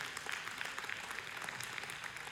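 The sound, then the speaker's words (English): Sparse clapping from a small audience of about a dozen people, a faint but steady patter of hand claps that runs throughout with no voices over it. “Thank y'all, 12 of you, for clapping by that.”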